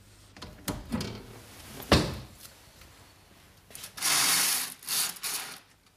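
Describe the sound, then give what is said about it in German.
A window is opened and curtains are drawn: scattered mechanical clicks and a sharp latch-like thump come first, then a sustained sliding swish followed by a couple of shorter rustling sweeps. “Wir werden die Fenster aufmachen, aber die Vorhänge zuziehen.”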